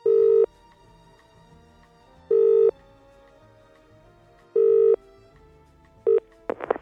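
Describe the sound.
Telephone ringback tone: three long, evenly spaced steady tone bursts, then a brief fourth burst cut short as the line is picked up, followed by faint clicks and handling noise.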